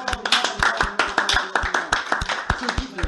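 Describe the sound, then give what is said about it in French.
Rhythmic hand clapping from a church audience praising the Lord, sharp, evenly spaced claps repeating in a steady beat at a moderate level. “Applaudissons pour le Seigneur.”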